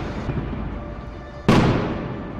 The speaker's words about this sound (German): Und Explosionen.